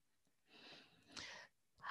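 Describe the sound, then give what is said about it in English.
A deep breath drawn audibly, a breathy, slightly wheezy rush of air in a few long strokes with short pauses between, heard alone without talk. “I am taking a deep breath.”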